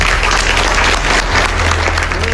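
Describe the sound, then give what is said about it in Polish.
Applause for Donald Trump as he announces a deal signed at Versailles, a continuous, even clapping from many hands over a low steady hum, never dropping off. “To klaski dla Trumpa, który mówi: podpisane.”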